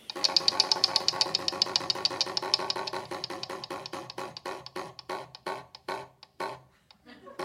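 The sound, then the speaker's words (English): A game show prize wheel spins: a rapid run of sharp ratcheting clicks gradually slows and spaces out until the wheel comes to rest. “would you please spin the wheel first for Father James Martin?”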